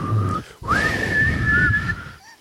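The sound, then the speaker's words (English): A person whistles to a sleigh team: a short tone, a brief break, then a clear note that swoops upward and holds steady for over a second above a low rumble, ending in a few faint chirps. “He sprang to his sleigh to give his team, to his team gave a whistle.”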